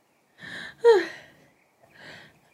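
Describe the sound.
A person sneezing: a short breathy intake, then a sharp, forceful burst, followed after a brief pause by a softer breathy sound.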